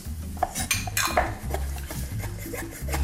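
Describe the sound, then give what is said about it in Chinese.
Irregular scrapes and light clinks as a stirring rod mixes a still-warm quick-cooking flour mixture, with brisk, uneven strokes at moderate loudness and no talking. “现在还是有点温度，所以我们还是先用搅拌棒去做融合。”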